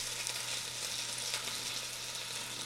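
Shanks browning in a pan give off a steady, loud frying sizzle with a dense hiss and crackle that holds evenly throughout, with no voices.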